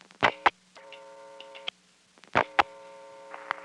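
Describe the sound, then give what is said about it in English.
Telephone reorder tone on a step-by-step first selector while digits are dialed: two stretches of steady buzzing tone, each preceded by a pair of loud clicks, over a faint low hum. “you hear a reorder in the background. Strange phenomenon, but apparently on the first selector, while digits are being dialed, there's a reorder.”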